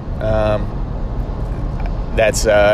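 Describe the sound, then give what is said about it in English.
A semi truck passes on the road, a steady low rumble of road noise running through the whole clip while a person talks over it. “Sorry, I'm going by another semi truck real quick.”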